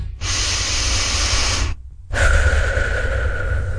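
A deep breath of fresh air out in nature: one long, loud hissing inhale, a brief pause, then a long exhale carrying a faint voiced, sighing tone.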